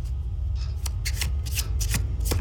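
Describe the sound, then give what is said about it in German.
A deck of tarot cards printed with Maya symbols is shuffled, a series of crisp, papery riffling bursts with short pauses between them. “Was sind das für Karten? Tarotkarten. Aber ein ganz spezielles Deck. Mit Symbolen der Maya.”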